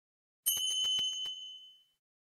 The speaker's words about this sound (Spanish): Lea las palabras de su libro después de cada tono.